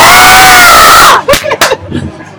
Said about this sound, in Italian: forse avrete riconosciuto quest'urlo. Lui è colui che ha esultato dopo la vittoria di Peter Sagan.